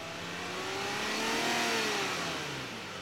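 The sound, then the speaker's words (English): A Jeep engine revs hard as the vehicle races ahead, its pitch climbing to a peak midway and then sinking again. The roar stays loud and steady for about three seconds, with no voices. “The Jeep raced ahead for about 20 feet, then came to a dead stop.”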